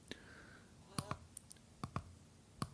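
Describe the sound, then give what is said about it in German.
Sharp plastic clicks of a radio's plus-minus tuning button being pressed, a few to many crisp clicks, some in quick pairs, faint over a soft background hiss. “Jetzt gehe ich mit der UKW, äh, mit der Plus-Minus-Taste einfach mal irgendwo hin.”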